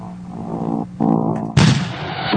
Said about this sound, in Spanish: Aprieta la barra espaciadora para lanzar el disco. Ok, vamos a presionar la barra de espacio. Van a oír el disco.